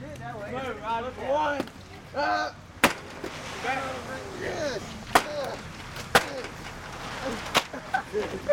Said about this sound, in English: We just got extra books from old times, and now we're just throwing them away because we can't do anything with them.